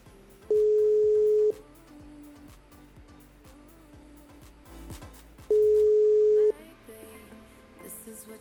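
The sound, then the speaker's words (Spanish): Telephone ringing tone while a call is placed to an administration office: two steady one-second electronic tones about five seconds apart, with faint low background noise in between. “Ahí estamos llamando. A ver si nos atienden.”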